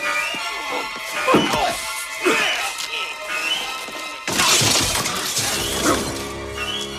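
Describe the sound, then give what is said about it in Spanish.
Heavy smashing blows ring out as a copper jug strikes a guard in a struggle, with a few loud crashing impacts over steady music. “Indiana le golpea con un cántaro de cobre, pero el guardia no suelta el alambre.”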